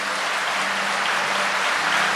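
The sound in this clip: Audience applause rolls on as a thick, even wash of clapping, swelling slightly toward the end, with no voices over it.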